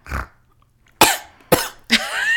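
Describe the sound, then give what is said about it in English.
Coughing after choking while snorting: three harsh, loud coughs come in quick succession, each a sharp burst with a ragged tail, preceded by a brief softer breathy sound. “I just choked snorting.”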